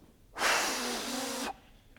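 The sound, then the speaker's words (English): A voice imitates breathing as the Spirit of God breathing through believers. It makes one loud, rushing exhale of about a second that swells quickly and then cuts off sharply. “The Spirit of God can breathe through believers. And I see all of us being like,”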